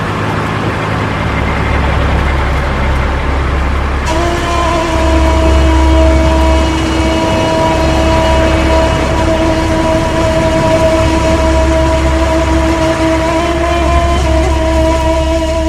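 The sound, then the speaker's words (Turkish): Engines of tractors and trucks driving one after another in a migrating convoy: a steady low rumble with a sustained droning hum above it, loud and unbroken throughout, with no voices. “Arda arda traktörler ve kamyonlarla göç eden Hasan Keyfiler.”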